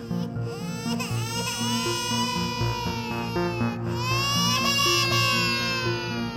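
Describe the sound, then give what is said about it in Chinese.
Little dinosaurs crying in a Taiwanese glove puppet show: several high, wavering wails overlap continuously over background music. “爬起来发现有好多只的小恐龙，惊恐地看着 QQ 猪，然后看着看着就哭了。”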